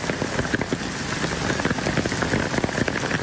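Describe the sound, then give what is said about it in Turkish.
Heavy evening rain turning to hail: dense, steady pattering of countless impacts at an even level throughout, with no voices. “İlçede akşam saatlerinde başlayan şiddetli yağış bir süre sonra doluya dönüştü.”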